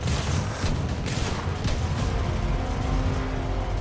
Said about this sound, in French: La Ford sort du garage et percute la voiture des flics garée en travers de l'allée. Le V8 de la Ford rugit.